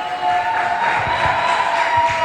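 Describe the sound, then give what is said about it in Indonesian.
Audience applause and cheering after a performance at a singing competition, a steady wash of clapping and crowd noise at moderate loudness throughout. “Beri tepuk tangan dulu dong.”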